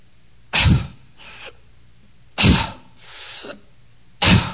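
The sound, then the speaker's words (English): A voice imitating the weak, laboured breathing of a nearly lifeless sick child: three sharp, rasping gasps, the first two each followed by a fainter, softer breath out. “And every time she'd breathe, she'd...”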